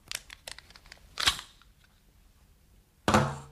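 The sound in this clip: Mechanical clicks and a sharp metallic clack as a pistol magazine is taken out, a cluster of small ticks followed by a brief rattle and then a single louder snap after a pause.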